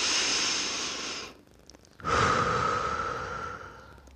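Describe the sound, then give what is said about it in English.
A deep breath taken alone, with two long, airy rushes of breath separated by a short pause and no talk. “So let's take a deep breath here.”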